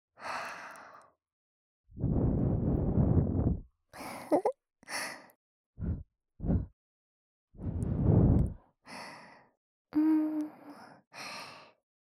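Breathing out and blowing: many breathy exhalations, from long noisy blows to short sharp puffs, a few with a voiced, sigh-like tone, separated by silent pauses.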